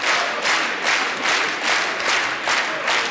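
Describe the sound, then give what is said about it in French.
Loud, sustained applause from a TV studio audience during a French television show: dense, continuous clapping fills the whole clip and swells in regular waves, with no talk over it. “Ça aura été l'émission la plus longue en applaudissements. 2 heures d'émission, 1h55 d'applaudissements.”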